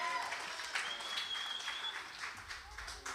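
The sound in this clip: An audience applauds a round of dad jokes at a Father's Day gathering, with faint, steady clapping throughout.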